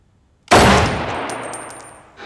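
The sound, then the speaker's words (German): A single loud handgun shot cracks out sharply, then trails off in a long, ringing decay that fades gradually over about two seconds. “So, jetzt schießen Sie mal.”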